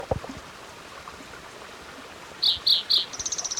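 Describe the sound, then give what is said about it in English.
A spotted towhee calls at Hendry's Creek, about 6,200 feet up: three clear, separate high notes, then a quick run of short buzzy pulses, all over a steady soft hiss. “Here's spotted towhee number 4 for Hendry's Creek. This is actually about 6,200 feet elevation.”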